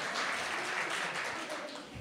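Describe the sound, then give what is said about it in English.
Applause from an audience, a steady wash of many hands clapping that eases slightly toward the end. “why did everyone applaud you?”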